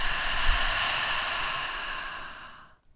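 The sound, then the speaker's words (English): A deep breath exhaled through an open mouth as a cleansing breath at the end of a meditation, a long breathy whoosh that holds for about two seconds and then tapers into silence. “Take a deep breath in, and as you exhale, open your mouth, let it go.”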